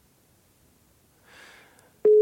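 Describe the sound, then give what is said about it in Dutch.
A telephone call to a pharmacy: near silence and a brief soft rustle, followed by a loud, steady single-pitched ringing tone that starts abruptly and holds to the end. “Ik ga naar de apotheek bellen”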